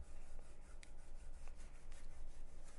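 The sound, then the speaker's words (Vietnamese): A rat scurries and scratches inside a plaster ceiling, giving a faint, continuous rough rubbing and scraping with a few brief sharper ticks scattered through it. “không biết sao con chuột nó lên trên được nữa. Nó cứ kêu lọc cọc suốt à.”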